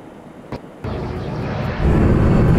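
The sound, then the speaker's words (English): A Fly Dubai passenger jet on flight FZ1073 takes off from Dubai in the early morning, its broad engine roar building in stages to a loud, sustained rush. “At 5:05 in the morning, Fly Dubai Flight FZ1073 takes off from Dubai.”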